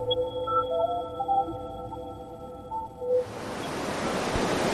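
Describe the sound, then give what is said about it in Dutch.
Surf washes onto the beach at Scheveningen as a steady, broad rushing roar that starts abruptly after about three seconds of sustained electronic tones, then holds loud and even to the end. “Ik loop nu langs het strand van Scheveningen.”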